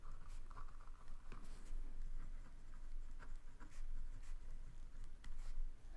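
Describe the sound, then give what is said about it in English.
Pen scratching on paper as someone writes notes: steady, scratchy strokes with scattered light taps and ticks, continuing evenly without talk. “Everyone always talks when I'm finishing writing things down.”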